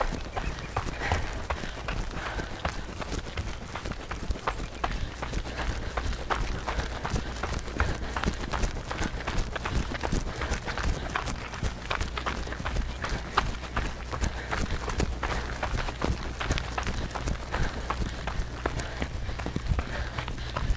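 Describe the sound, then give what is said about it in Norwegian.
A person runs up a hill during an interval workout, feet striking the ground in a quick, regular rhythm of many steps that stays steady and moderately loud throughout. “Jeg løper i en bakke”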